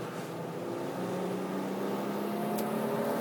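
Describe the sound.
A race car engine driving on the Laguna track in third gear, a continuous dense drone with a steady roar and constant loudness throughout, no voices over it.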